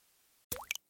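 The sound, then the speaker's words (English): A single drop of unaged whiskey plops as it drips through a charcoal filter at a Tennessee whiskey distillery in Lynchburg. It is a brief, faint liquid plink with a rising pitch, set in near silence. “That's the sound of unaged whiskey transforming into Jack Daniel's Tennessee whiskey in Lynchburg, Tennessee.”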